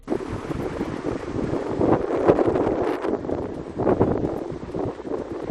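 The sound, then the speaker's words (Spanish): Strong south wind of storm Martiño gusting through central A Coruña, a continuous roaring rush with buffeting swells and no voices. “Este es el sonido del viento en plena zona centro de La Coruña. Hoy no hace falta ni acercarse a la costa para percibir las rachas con aviso amarillo en la zona noroeste.”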